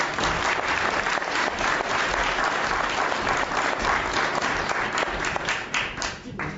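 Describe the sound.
An audience applauds to welcome a speaker onto the stage. The dense clapping stays steady and fairly loud for several seconds, then thins slightly at the end.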